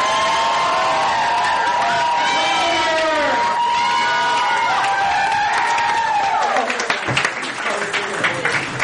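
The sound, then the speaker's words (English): Loud, sustained cheering and whooping from an audience welcoming a first-time musician onstage at a live evening show, with excited shouts blending into a continuous roar of voices throughout. “Make some noise for James, ladies and gentlemen!”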